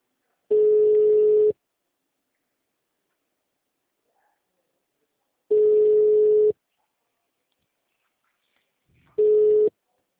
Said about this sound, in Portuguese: Nossa, a ligação tá chamando.